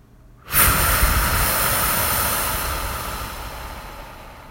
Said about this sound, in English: you can take in some deep inhales and let out an audible exhale, which would sound something like this.